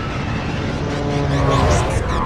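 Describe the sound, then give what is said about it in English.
A spaceship lands on a volcanic world in a video game, its engine giving a loud, steady roaring drone with a broad hiss that thickens slightly toward the end. “Alright, we're landing on a volcanic world, kind of like Mustafar.”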